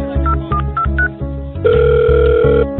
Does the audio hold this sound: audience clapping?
no